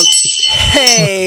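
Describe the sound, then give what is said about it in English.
A small bell rings with bright, sustained high tones that linger while a person talks over it. “I got my bell back.”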